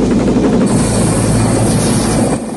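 A helicopter gunship's rotors keep spinning after the chopper has crashed in a river, a loud, steady whirring rumble that holds throughout and eases slightly at the very end.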